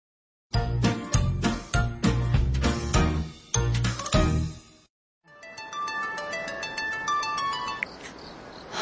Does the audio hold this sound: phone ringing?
yes